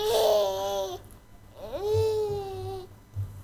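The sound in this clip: A baby cries in two drawn-out, high wails. The second swoops up in pitch and then holds steady.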